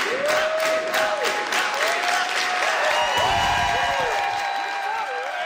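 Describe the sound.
Campaign supporters at a Québec Solidaire campaign kickoff rally in Montreal's Old Port cheer and applaud loudly and continuously, while voices chant the spokesperson's name in a rhythmic, sing-song pattern.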